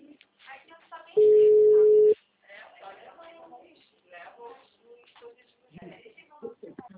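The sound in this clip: A telephone rings with a single steady electronic tone lasting about a second, standing clearly above people talking before and after it.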